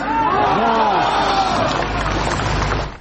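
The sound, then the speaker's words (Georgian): A crowd shouting enthusiastically in response to Alexei Navalny's question, loud overlapping voices forming a continuous roar that holds steady before cutting off at the end. “ნავალნის სამშეკითხვას, როგორც მოისმინეთ, ახტაცებული შეძახილები მოხვა.”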